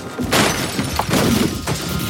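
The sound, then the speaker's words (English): A car crusher flattens a limousine with loud crunching and shattering bursts as metal and glass give way, several heavy impacts packed into a short span. “There it goes! Two rounds in the crusher and it'll be as flat as planet Earth before we discovered it was round.”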